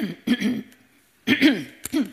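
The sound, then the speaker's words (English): Throat clearing comes in a few short, rough bursts separated by brief pauses. The voiced rasps are moderately loud, and no speech is heard around them. “to clear my throat”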